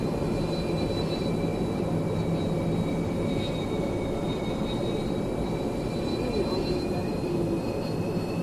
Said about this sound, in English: Put your throttle all the way up until the afterburners kick in. We'll wait for your aircraft to accelerate.